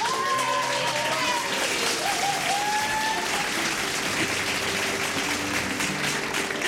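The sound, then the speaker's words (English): Audience applause at a live music show, a thick wash of clapping that holds steady for nearly seven seconds, with a few whoops rising above it. “A round of applause for Caitlin Farmer.”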